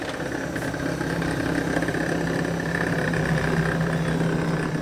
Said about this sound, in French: Enfouis sous les quatre tours de Tolbiac, dans le 13e arrondissement de Paris, les entrailles immenses de la Bibliothèque nationale de France engendrent inlassablement leur cortège mécanique de nacelles suspendues à des rails